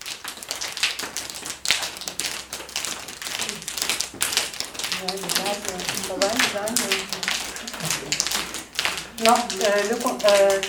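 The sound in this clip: One hand tapping the back of the other during a warm-up exercise, making many quick, dry pats in a steady patter with talk over parts of it.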